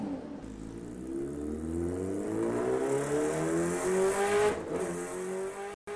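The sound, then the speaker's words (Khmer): A motorbike speeds away fast, its engine revving loud and steady, the pitch climbing throughout as it accelerates, then briefly cutting out near the end. “ហេងក៏បានជិះម៉ូតូយ៉ាងលឿនចេញបាត់ទៅ”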